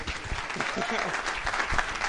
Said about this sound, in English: So, yeah, so I think maybe by way of just an applause, just to get everyone, just appreciate her, just with some love, please.